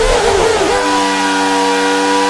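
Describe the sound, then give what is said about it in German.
Car tire screeching in a video game: a wavering squeal that lasts under a second, then settles into a steady, buzzy engine tone. The sound is loud, with no talk over it. “Allein schon am Reifenquietschen hört man, dass der nicht gut gealtert ist.”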